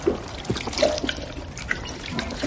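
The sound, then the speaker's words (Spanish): Liquid pours and trickles as someone drinks giant's milk from a horn, the white liquid spilling down a beard and chest. The splashing and dribbling is fairly continuous and moderately quiet, with a few slightly louder gushes. “Bebe del cuerno derramándose un líquido blanco por la barba y el pecho.”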